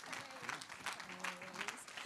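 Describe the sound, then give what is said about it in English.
An audience at a morning church service applauds to welcome a pastor to the stage to preach. The clapping is faint but continuous and fills the whole moment. “So let's give Pastor Joe Geerling a great big hand as she comes up to preach this morning.”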